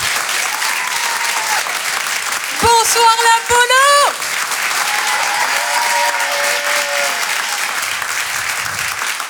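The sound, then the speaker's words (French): Audience applause at the Apollo Théâtre comedy club in Paris as a comedian takes the stage, steady clapping throughout with a voice briefly greeting the room over it midway. “Faites du bruit, s'il vous plaît, pour Sophie Loustalot.”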